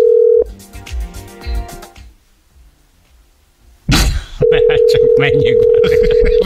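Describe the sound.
Telephone line tones as a call is placed to a listener: a loud, steady tone plays at the start, then cuts off for a stretch of voices. After a brief noisy burst it returns and holds to the end.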